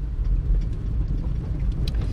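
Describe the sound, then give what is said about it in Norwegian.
A car drives over a washboard gravel road, giving a steady, rough, low rumble of rattling and shaking that continues without a break. “Nå kjører jeg faen meg over det der jævla vaskebrettområdet igjen.”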